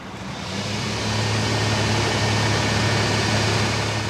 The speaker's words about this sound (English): All right, it's going to get loud now, so I'm going to turn the pump on and start pumping down the cesspool.